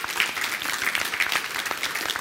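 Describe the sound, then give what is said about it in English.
Audience applause at a business meeting, a steady dense patter of many hands clapping at moderate loudness without pause, with no voices over it. “Give yourselves a big hand clap.”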